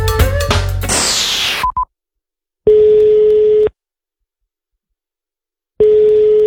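Telephone call tones: a brief burst of other sound, then a short beep, followed by two long, steady, evenly pitched tones separated by a few seconds of silence.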